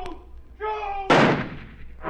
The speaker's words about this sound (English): I fired again, and again, and again! But I couldn't hit him!